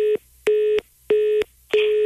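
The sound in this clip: Telephone disconnect tone after the caller hangs up: steady mid-pitched beeps in an even on-off rhythm, each about a third of a second long, with no talk.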